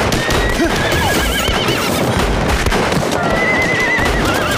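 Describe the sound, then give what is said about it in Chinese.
Several horses neigh and whinny repeatedly over dense, continuous noise. Hoof clip-clops mix in during the aftermath of a battle. “是啊，这几匹马儿真是不错。”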